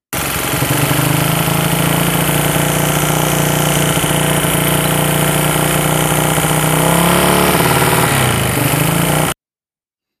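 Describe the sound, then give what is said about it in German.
An engine idles at slightly high revs, making a loud, steady mechanical drone with a low, throbbing hum. It runs unbroken for about nine seconds, wavers briefly near the end and then cuts off abruptly. “Also am Anfang war mir das ein bisschen zu viel Drehzahl für den Leerlauf.”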